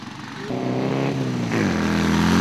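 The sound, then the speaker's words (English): Engine of a Baja Bug off-road race buggy from a university Baja race club, a loud, steady buzzing drone whose pitch shifts abruptly a couple of times as it revs. “So we've been racing the Baja Bug around. It caught a little bit of air earlier. It was really cool.”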